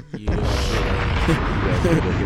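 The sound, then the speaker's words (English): A Funk Flex-style bomb explosion sound effect drop hits with a sudden boom, then a dense, loud roar of noise sustains for about two seconds. “We literally had to drop the funk flex bomb right now.”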